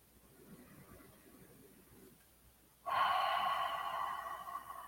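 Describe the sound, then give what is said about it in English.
A deep breath taken during a guided relaxation exercise. Soft, quiet breathing sounds become noticeably louder partway through. “I'm going to ask you to take a deep breath.”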